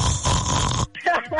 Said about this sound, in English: My father is the biggest snorer ever. Oh, God. He got one of these?